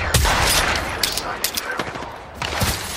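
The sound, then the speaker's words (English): Gunfire in the Apex Legends video game: irregular sharp bursts of shots over a dense, noisy background, with a few louder cracks standing out from the steady din. “Getting shot at. Firing on subjects. You're being aimed at.”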